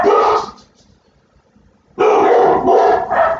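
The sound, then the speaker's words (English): Dogs bark loudly at home: a short burst of barks, a pause of about a second and a half, then a longer run of rapid barking that overlaps. “There's the dogs.”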